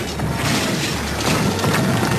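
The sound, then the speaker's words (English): Smashing, crashing destruction from the video game Rampage World Tour, a loud, dense wash of impacts and rumbling debris that runs without a break for the whole clip. “So, basically, you just go around destroying stuff until you're stopped? Yes. That's literally what it is.”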